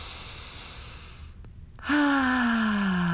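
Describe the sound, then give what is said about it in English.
A guided breathing exercise: a soft airy breath drawn in through the nose, a short pause, then a voiced sigh out through the mouth that falls gently in pitch. “Move this breath in through your nose this time, out through your mouth.”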